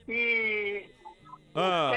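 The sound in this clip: Chickens in a backyard give two drawn-out, harmonic squawking calls, loud and clear. The first lasts under a second, a few faint soft sounds come in the gap, and the second begins near the end.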